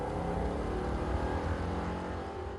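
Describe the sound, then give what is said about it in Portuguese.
A car accelerates hard, foot pressed to the floor to escape a pursuer, producing a sustained, throaty engine roar with a deep rumble that eases slightly toward the end. “Pisei fundo no acelerador e consegui me afastar daquela coisa terrível.”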